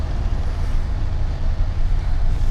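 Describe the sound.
A car drives through a city at night, heard as a loud, steady, low engine drone and road rumble that holds without a break.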